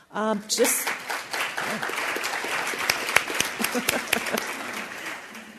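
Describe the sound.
Audience applause at an economics panel discussion: a brief voice at the start, then steady, enthusiastic clapping that continues at an even level to the end.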